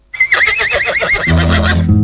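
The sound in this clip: A horse whinnies loudly, one long wavering neigh with a shaky, trembling pitch that fills nearly two seconds after a brief silent start.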